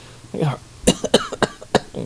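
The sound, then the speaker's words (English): A few short, sharp coughs from someone lying in bed with a painful injured rib, coming in quick bursts mixed in among brief stretches of speaking voice. “Laying in this position, however, it is kind of delicate on that. I mean, let me tell you, that does hurt when I cough with that rib.”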